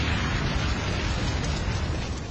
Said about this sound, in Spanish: Situó la mina en las cadenas del tanque. Y tanque y zapador explotaron a la vez.